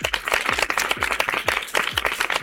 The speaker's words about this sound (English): if you did the actions at home, give yourself a great big round of applause